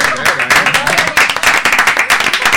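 An audience applauds with dense, steady clapping that stays loud and continuous throughout.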